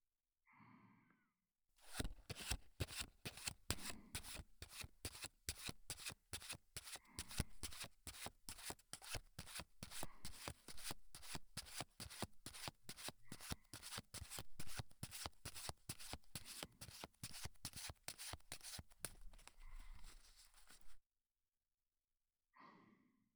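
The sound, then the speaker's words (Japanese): Playing cards fanned close to the right ear make a long, unbroken run of rapid, crisp fluttering clicks that stays loud and even. Brief soft breathy sounds come before and after. “まずは右のお耳から。目を閉じてカードの風を感じてください。”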